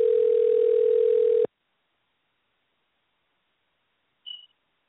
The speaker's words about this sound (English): you heard me pausing as I dialed his number because he should have been on by now